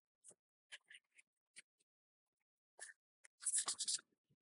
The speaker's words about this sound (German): Bevor wir die Sendung beenden, gibt es noch den Eintrag ins Gästebuch der Riesen.